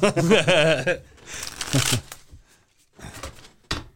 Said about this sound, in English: Each card has a Bible verse on both sides. We're going to shuffle this thing up.